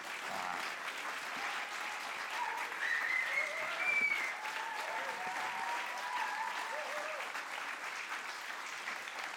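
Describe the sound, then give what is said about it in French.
Sustained applause from an audience giving an ovation at a literary tribute reading, dense and steady across the whole stretch with a slight swell near the middle. “si vous lui faites une ovation”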